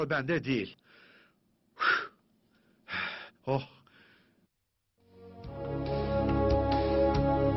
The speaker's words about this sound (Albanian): po kështu është edhe në këtë çast, që po marr frymë me shpejtësi.